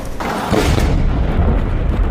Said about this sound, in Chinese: 以色列军队在黎巴嫩南部的曼苏里村实施大规模爆破行动，炸毁多栋此前被安置炸药的房屋，强烈震感波及周边多个村庄